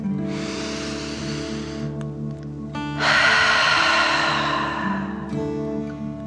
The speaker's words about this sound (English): and then out through your mouth, pretending you are breathing fire. Ready? Deep breath in and out.